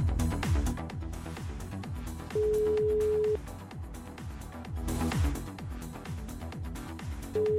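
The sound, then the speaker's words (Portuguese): A telephone call rings while waiting for an answer: a steady low ringback tone sounds for about a second, then falls silent for several seconds before the next tone begins at the end, over a rhythmic background. “Chamando. Vamos ver se vai atender.”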